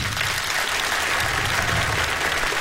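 Dense audience applause for a guitarist at a live band concert: a thick, steady wash of clapping that holds at an even level from start to finish.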